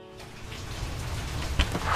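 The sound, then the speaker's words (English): Steady rain falls outside a small lakeside house at the end of a country road, an even, dense hiss of drops with one sharper tap near the end and no voices. “It's raining when I get there, which makes the house feel even cozier than it already is.”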